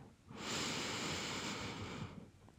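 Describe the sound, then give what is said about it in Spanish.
A slow, deep inhale during a Spanish-language relaxation breathing exercise with a hand on the chest: a soft, steady, airy rush rises, holds for under two seconds, then fades. “Y ahora quiero que con la manito en el pecho empieces a respirar. Inhala.”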